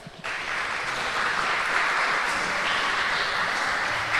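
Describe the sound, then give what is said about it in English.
An audience applauding to welcome a country singer onto the stage. After a brief quiet moment the clapping starts abruptly and continues as a sustained, even roar to the end. “Please put your hands together and give a very warm welcome to Breton Rose today.”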